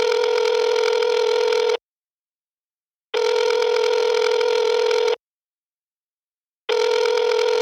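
Ringing of an outgoing telephone call: steady tone bursts about two seconds long separated by silence, three rings with the last one cut short, no voices.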